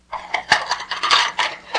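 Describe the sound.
Dishes and cutlery are handled, a quick run of light clinks and clattering chinks over about two seconds.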